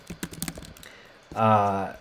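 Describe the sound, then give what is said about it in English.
Fast typing on a computer keyboard produces a short burst of sharp, clicking keystrokes. A man's voice briefly follows. “I'm pulling up his record right now if you hear me typing.”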